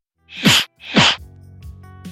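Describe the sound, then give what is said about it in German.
Mouth-made imitation of a cartoonish movie fist-punch smack: two loud, breathy thwacks about half a second apart, each with a dropping low thud, followed by quieter trailing mouth noises. “Dann haben wir uns gedacht, dass man diesen Schlagsound sehr gut mit dem Mund nachmachen kann, also komplett organisch.”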